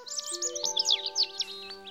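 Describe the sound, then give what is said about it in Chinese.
A bird sings a quick, lively run of high twittering notes over steady sustained tones in the background. “风终于停下来了，乌云散开了，太阳又出来了，一只鸟儿高兴地唱着歌。”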